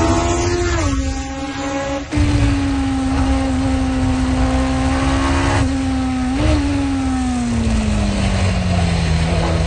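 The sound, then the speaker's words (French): A racing car lapping a race track, its engine a loud, steady droning whine that holds a nearly constant pitch, dipping briefly a couple of times and sagging slightly toward the end, with no voices. “Extrait d'un tour de piste du pilote québécois Bertrand Gaudin sur sa page YouTube”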